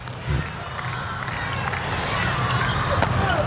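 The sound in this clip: A basketball is dribbled between a player's legs during a game involving Slovenia. Quick bounces mix into a continuous crowd murmur and squeaking court sounds, and a commentator talks over the play.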